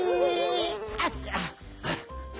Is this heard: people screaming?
no